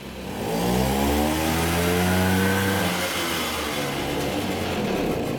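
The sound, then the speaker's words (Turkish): An engine revving after its dirty spark plug was cleaned with a torch, the engine sitting on springs: a loud, continuous mid-low drone whose tone climbs as the revs rise, then holds steady and smooth. “Gaza bastıkça motor oynuyor. Yayların üzerinde duruyor çünkü.”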